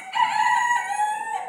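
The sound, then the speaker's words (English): A young rooster crows once in the main hen house, giving a single bright, sustained, strongly harmonic call that lasts about a second and a half. “One of our little roosters are crowing away.”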